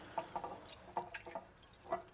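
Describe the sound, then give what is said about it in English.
Rice is washed in water, giving faint, irregular splashes and drips, with several small sharp wet clicks spread unevenly over quiet background. “Just washing the rice.”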